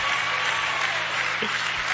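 Applause at a religious service, a steady, dense clapping that holds at an even, moderate level from start to end with no pause.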